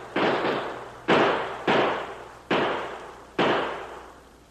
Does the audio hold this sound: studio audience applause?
no